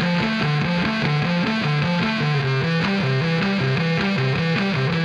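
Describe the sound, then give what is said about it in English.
A heavy metal bass guitar solo, distorted and drenched in reverb, plays a loud, continuous riff of low notes that rock back and forth between two pitches in a steady, repeating rhythm, with no voices. “Bass solo, take one. Yeah, get that reverb in there.”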